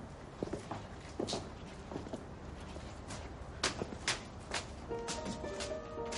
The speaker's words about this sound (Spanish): Suben unas escaleras débilmente iluminadas.